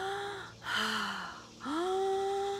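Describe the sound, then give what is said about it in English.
Fast, exaggerated breathing in and out through the mouth: a few loud, rushing breaths, each a broad airy swell that rises and falls in an uneven rhythm. “if you wanted to experience what does that tingly feeling feel like, you'd breathe in and out of the mouth like,”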